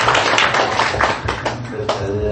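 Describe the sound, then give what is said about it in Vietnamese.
Audience at a Guanyin temple courtyard gathering gives a round of applause: sharp, uneven claps that come in a few bursts, with a voice speaking near the end. “Con mừng một tràng pháo tay nha con.”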